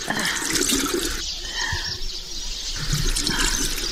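Water splashes as a mother washes a child's face. Bursts of bright, rushing splashing come at the start and the end, with a softer, quieter stretch in between.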